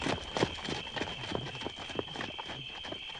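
Horses' hooves galloping, a brisk run of many hoof beats in a steady driving rhythm at moderate, even loudness.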